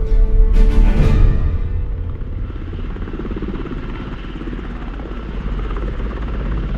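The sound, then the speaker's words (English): A Chinook helicopter descending toward Mihail Kogalniceanu Airport in Romania gives a heavy rotor thrum and engine roar, loudest at first, then settling into a steady, even drone. “Approaching Mihail Kogalnitsiano Airport, Romania. After hours in the Chinook, we finally begin our descent.”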